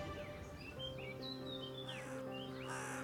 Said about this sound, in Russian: В это время, как на грех, за окном пролетали вороны.